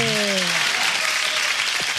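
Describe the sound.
Applause celebrating a Prêmio Jabuti semifinalist, dense steady clapping throughout, with a voice briefly heard at the start.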